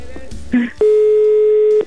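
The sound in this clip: Telephone ringback tone of a call going unanswered: one steady, even ring lasting about a second, preceded by a few short, muffled sounds.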